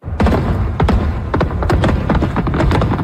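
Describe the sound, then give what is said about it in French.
Fireworks explode over the Toronto waterfront at midnight, after a live-streamed event on the docks: many sharp, loud bangs with deep thuds follow in quick succession, dense and continuous throughout. “Alors, feu d'artifice pendant 10 minutes.”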